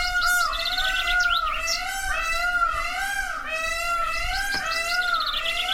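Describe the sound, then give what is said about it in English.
Peacocks give loud, wailing, cat-like calls, rich and wavering, that repeat and overlap without a break for several seconds; no voices are heard. “That is a peacock or peacocks.”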